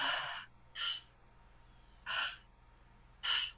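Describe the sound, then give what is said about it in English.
Audible breath-work breathing, in and out through the mouth in a circular connected way: four breathy rushes of air, the first two close together and the last two spaced apart, with quiet gaps between. “breathing in and out through the mouth in a circular connected way. And it kind of sounds like this.”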